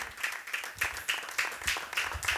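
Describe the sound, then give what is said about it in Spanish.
A church audience claps together in a steady unison beat, each bright burst of many hands landing at an even pace, fairly quiet overall. “Aleluya, palmas fuertes al Señor.”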